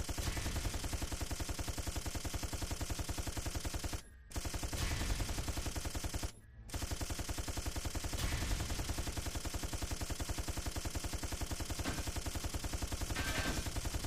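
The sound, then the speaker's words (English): Machine-gun fire rattles in a video game, with rapid, sustained automatic bursts that run almost nonstop. The loud, harsh stream breaks off twice for brief pauses, and no one talks over it. “I got a machine gun. Yeah. I'm all about wasting bullets.”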